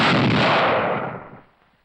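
Gunfire at naval shooting practice: one loud, broad blast that holds for about a second and then fades away over roughly half a second, with no voices.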